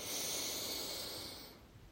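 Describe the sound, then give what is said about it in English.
A deep breath drawn in through the nose: one long, soft, airy inhale that swells briefly and then tapers off, heard alone without talk. “As we take our first deep breath in through our nose”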